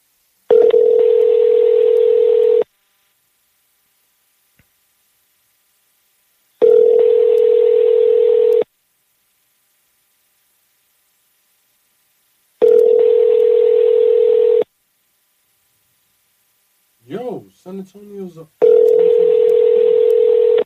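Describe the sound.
Telephone ringback tone from an outgoing call that goes unanswered and rings out toward voicemail: a steady tone sounds four times, each about two seconds long, with long silent gaps between, and a brief voice is heard before the last ring.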